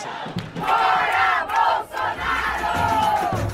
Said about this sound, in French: Voilà, c'était les manifestations de mai dernier.